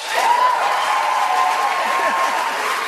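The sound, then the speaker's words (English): Audience applause rises at a comedy show, a dense, steady clapping that holds at an even loudness for the whole stretch, with a little cheering mixed in. “My agent came to my show last week, and afterwards he's like, why are you telling people in the audience how old you are? And I'm like, because it gets applause.”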